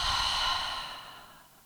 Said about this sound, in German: Halte deinen Atem oben dann öffne deinen Mund und atme alles wieder aus, lass los.